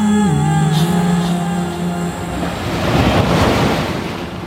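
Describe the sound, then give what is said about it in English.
Ocean waves breaking at a surf beach, White Plains, heard as a loud, steady wash of surf with a swelling roar toward the end and no voices. “John's favorite beach was this one, White Plains.”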